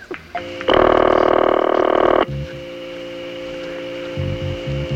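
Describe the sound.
A telephone ringing tone sounds while a call is placed to a boatyard: one steady, buzzy ring lasting about a second and a half, followed by a quiet line with a faint hum.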